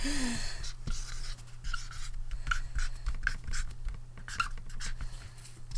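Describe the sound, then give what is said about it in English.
Pen writing on paper: faint, continuous scratchy strokes with soft irregular scrapes over a low steady hum. “What are you so diligently writing over there?”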